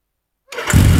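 A new motorbike engine starts after about half a second of silence. It cranks with a rough burst, then catches and settles into a loud, steady, low idle that lasts to the end.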